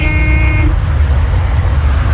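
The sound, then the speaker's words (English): A car horn honks once by an abandoned car: a steady, buzzy tone lasting under a second, then it cuts off and a loud, low rumbling noise carries on alone. “What idiot is beeping at an abandoned car?”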